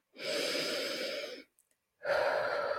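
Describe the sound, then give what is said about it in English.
Deep breathing during a guided meditation exercise: a long, airy breath of over a second, a short silent pause, then another full breath begins. The sound is soft and steady, with no talking. “Think of those three big deep breaths, or let's do them. Do one breath now, if you will.”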